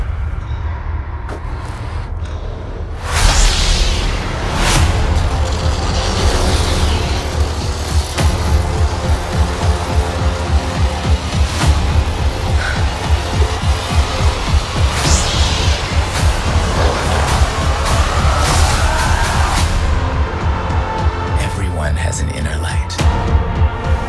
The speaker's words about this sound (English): Here's just a little trailer.